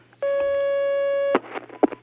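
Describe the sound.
A telephone line tone sounds as a caller is connected to a phone-in question programme: a single steady electronic tone lasting about a second, followed by short bursts of crackly line noise.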